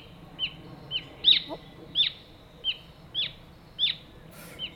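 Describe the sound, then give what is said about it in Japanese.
Repeated brown-eared bulbul calls: short, sharp, high-pitched chirps at a steady, loose rhythm, each one distinct and fairly clear against a low background hiss. “じゃあこちらはどうでしょう？ヒヨドリです。”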